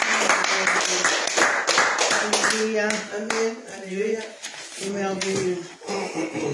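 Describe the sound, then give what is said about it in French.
A church audience claps in acclamation during a service, with quick, loud hand claps over the first three seconds, then voices continuing over fainter clapping. “Est-ce qu'on peut acclamer encore Jésus-Christ de Nazareth?”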